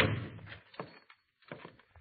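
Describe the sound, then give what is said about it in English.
A door is shoved open into an upstairs room above a gaming hall in an old western setting. A loud opening thump is followed by a few softer knocks and creaks, then a brief quiet gap and another short cluster of bumps. “If you want in, just shove the door.”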